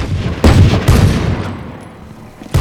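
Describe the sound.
Gunfire in a tactical shooter video game: three loud, booming shots with heavy low-end punch, each decaying into a rumbling tail, separated by uneven pauses.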